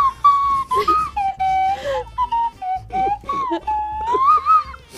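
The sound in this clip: A slide whistle plays short phrases of sliding, wavering pitch that swoop up and down with breathy edges, while low voices sound faintly underneath.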